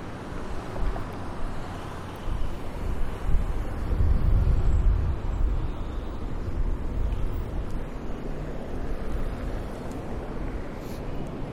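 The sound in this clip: Street traffic while crossing Wacker Drive: a steady low rumbling roar with wind buffeting the microphone, swelling briefly partway through before settling back, no voices.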